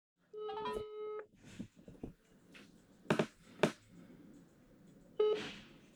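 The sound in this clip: A telephone is dialed to place a call: a quick run of electronic dialing beeps, then a couple of sharp clicks and one more short beep.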